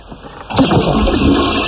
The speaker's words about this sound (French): Enfin, je tire la chasse, je ne comprends pas.